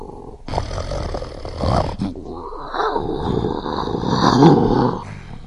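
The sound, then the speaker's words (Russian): A lion growls in a loud, rough, continuous rumble lasting about five seconds, swelling somewhat toward the end before easing off, with no voices over it. “А что же, например, вот сейчас этот лев говорит?”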